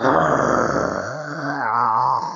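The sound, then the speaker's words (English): A human voice imitates a dog's warning growl: a continuous low, rough rumble lasting about two seconds, wavering slightly in pitch, with no words. “when a dog is minding his own business and he growls, you know, you hear that growl, that,”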